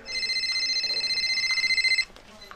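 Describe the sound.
An incoming call's phone ringtone: a bright, rapidly pulsing electronic warble of high tones that holds steady for about two seconds and then cuts off.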